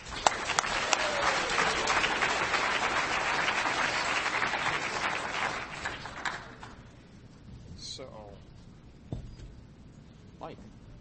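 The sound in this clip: Audience applause welcoming a speaker at DEF CON: dense, loud clapping for about six seconds that thins out and fades, then a voice speaks over faint room noise.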